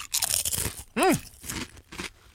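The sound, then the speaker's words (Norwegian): Crunching of a paprika-flavoured potato chip being bitten and chewed: a few crisp, brittle crunches with a brief low hum in between, fairly loud and without talk. “blir litt varm i hjertet når jeg vet at jeg nå skal ta en paprikachip i kjeften.”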